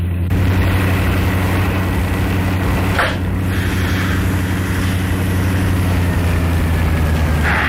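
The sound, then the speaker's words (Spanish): An old, rundown vehicle engine runs flat out, a loud, steady low rumble with strong droning harmonics that holds unchanged throughout. “¿No puedes acelerar más, pequeñín? Es todo lo que da esta chatarra.”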